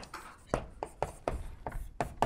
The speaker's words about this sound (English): Let me write this over here.